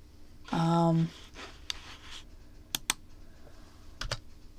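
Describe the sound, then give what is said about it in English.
Typing on a computer keyboard: a few sparse, sharp key clicks at irregular intervals, faint against a low background hum, with a short voiced sound near the start. “You can hear me messing with my computer right now. Something I gotta type in.”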